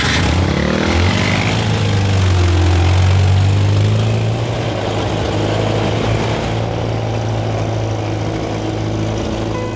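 A car engine runs as the car drives off, a loud, steady, rumbling drone with a low hum that holds throughout without a break.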